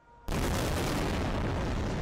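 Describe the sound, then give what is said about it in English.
An airstrike hits a single building on a busy Gaza City street: a sudden massive blast bursts in and becomes a loud, sustained, roaring rumble that barely fades. “In one of the densest places on the planet, an Israeli airstrike hits a single building.”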